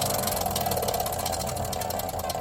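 A prize wheel of words being spun gives a rapid, even ratcheting clatter that runs steadily and loudly throughout.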